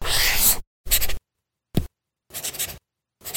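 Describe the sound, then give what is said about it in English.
Scratchy stylus strokes of writing on a paper tablet with a textured surface, heard as five short dry bursts separated by silence, alone and fairly loud. “That's not paper. It's the sound of the new Remarkable Paper Pro, rewriting the future.”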